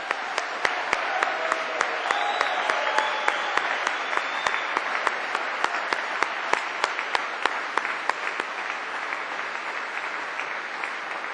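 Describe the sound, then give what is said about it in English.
An audience applauds at an evening peace-movement event in Vancouver: a dense, steady wash of clapping lasts about eleven seconds, with sharp clicks scattered through it. “I know that you will give a warm round of applause and greetings to the Vancouver Raging Grannies”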